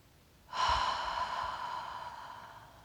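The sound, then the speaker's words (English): A single slow, airy breath starts abruptly and then gradually fades over about two seconds, soft and faint with no other sound. “Follow your breath as you slowly inhale and let it go.”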